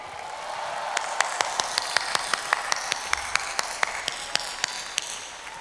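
Sharp hand claps ring out in a long, evenly paced run at a brisk tempo, fairly quiet and crisp, with no voices over them.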